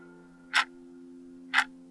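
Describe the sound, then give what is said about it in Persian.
A clock ticks twice, two sharp, crisp clicks about a second apart, over a steady low humming drone. “صدای تیک تیک ساعت”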